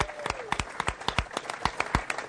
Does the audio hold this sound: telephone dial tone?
no